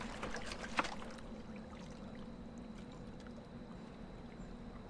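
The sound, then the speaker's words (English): Faint trickling water seeps into a small rowboat with an oar that is slowly sinking. A low, steady wash and dribble runs throughout, with one brief knock early on. “The water continues to seep in. We're sinking.”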